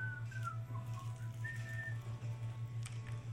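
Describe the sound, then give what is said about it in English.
A balding old man sitting on a wooden stool by a lantern whistles idly while whittling a stick: a soft, wandering tune of thin tones over a steady low hum. “He is idly whittling a stick and whistling.”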